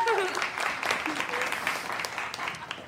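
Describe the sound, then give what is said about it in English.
Audience applause welcomes a guest at a live show: dense, steady clapping runs for the full three seconds at an even loudness, with some voices mixed in. “Give it up for Danielle, everybody.”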